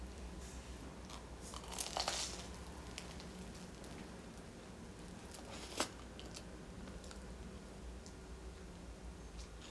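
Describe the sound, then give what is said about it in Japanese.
Faint chewing and biting of breakfast food, with soft continuous crunching and a couple of sharper crunches standing out, no talking. “食べる音がちょっと苦手な方とかはあの数分間飛ばしていただければと思いますはいではそれではいただきます”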